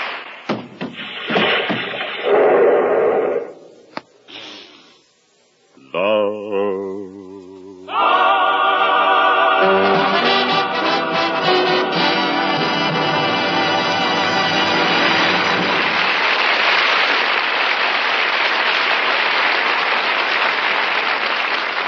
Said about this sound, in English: that applause should tell you what a hit you've written.